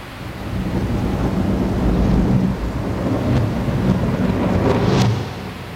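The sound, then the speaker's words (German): A raging thunderstorm with torrential rain over the Amazon rainforest roars in a loud, continuous wash of rain and wind noise with deep rumbling underneath, steady from start to end. “Dazu tobt der Sturm und der Regen gießt herab, den man eigentlich nicht mehr Regen nach unseren zahmen Begriffen nennen kann.”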